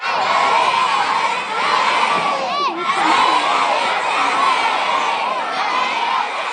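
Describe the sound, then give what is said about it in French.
Elementary school students in St. John's, Newfoundland cheer loudly for a hockey player. A dense crowd of high children's voices shouts and whoops without a break, with one brief dip partway through. “On entend des élèves de l'école élémentaire Vanier à Saint-Jean-de-Terre-Neuve qui encouragent Alex Newhook du Canadien de Montréal.”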